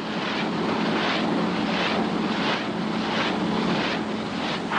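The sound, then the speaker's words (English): Loud, steady roar of a Rotodyne compound gyroplane taking off, with a rhythmic pulsing beat throughout and a low droning hum beneath. “Roger, Rotodyne taking off now.”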